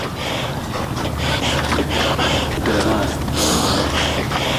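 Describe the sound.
A mountaineer climbing Siakoh mountain near Firuzkuh breathes heavily, with loud, rhythmic gasps and exhales repeating roughly every half second over a constant rushing background.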